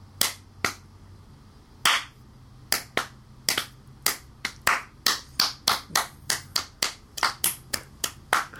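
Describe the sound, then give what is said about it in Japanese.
Scattered applause from a small audience: a few isolated claps at first, then thickening into a quicker, irregular run of sharp hand claps, with no talking. “なんでずっと少ねえんだよ、人数が。増やしてけよ。拍手のボリューム増やしてけ。”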